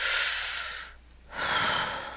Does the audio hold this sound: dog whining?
no